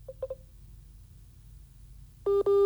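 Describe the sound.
Telephone tones sound as a call comes in on a phone line: a few quick soft beeps first, then after a quiet gap two longer, louder steady tones in a row.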